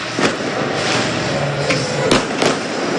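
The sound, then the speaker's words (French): Fireworks set off by football supporters in the stands: a few sharp bangs and cracks punch through a dense, steady roar of crowd noise. “Ce feu d'artifice tiré par les supporters du MNK depuis la tribune Borély, hein, au-dessus du ciel d'Ornano.”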